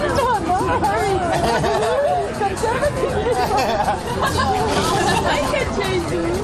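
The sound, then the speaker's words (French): Ambience of a park beer garden in Prague: steady, lively chatter from many people talking at once, with laughing voices rising and falling throughout. “Tintement des éco-cups, éclats de rire et chants des oiseaux en fond sonore, bienvenue au parc de l'Etna.”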